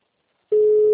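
A telephone call tone sounds while a call is being placed: one steady, clean mid-pitched tone starts halfway through and holds unchanged to the end after a silent first half.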